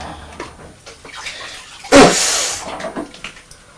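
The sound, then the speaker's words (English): Tap water running as someone rinses sticky hands; soft clatters give way to a sudden splashing gush that stays steady, then tapers off. “Just rinse my hands, because they're a bit sticky after eating that cheese.”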